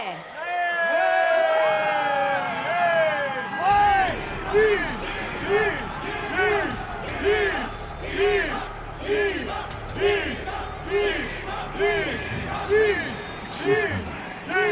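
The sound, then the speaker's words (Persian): A stadium crowd cheers during the last match of a competition's first round. It opens with a held voice over the noise, then settles into many loud, rhythmic chanting pulses that repeat steadily to the end. “کل استادیوم داره میلرزه. تمام تماشاگران منتظر ظاهر شدن نیشه”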